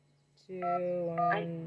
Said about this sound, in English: From a touch-tone telephone, you may dial your party's 7-digit number at any time.